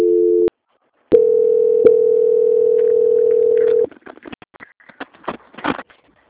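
Telephone tone during a call transfer to a quality department: a short steady tone, a pause, then a long unbroken tone lasting nearly three seconds, followed by faint irregular clicks.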